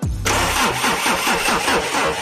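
Engine starting sound effect in a radio jingle: a brief low cranking gives way to the engine catching into a loud, steady rumbling run with a regular throbbing pulse.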